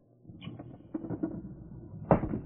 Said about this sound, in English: Open the window wider.